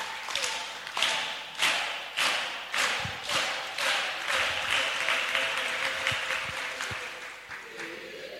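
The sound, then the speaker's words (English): A church audience gives a clapping offering to the Lord: loud claps land together in a steady rhythm, about once a second, and fade toward the end. “Give the Lord a big clap offering.”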